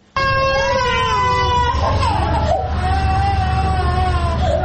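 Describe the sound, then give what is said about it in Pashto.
Sick children aged one month to five years, ill with diarrhoea, cry in a ward of the provincial hospital in Tarinkot: a loud, sustained high-pitched wail whose pitch wavers and glides throughout. “دا جړاوی د هغه ماشومانو دي چې اوس مهال تازه د نسناستي او یا هم د ایسحال په ناروغي اخته دي چې دا مهال د ترینکوټ په ولایتي روغتون کې بستر دي”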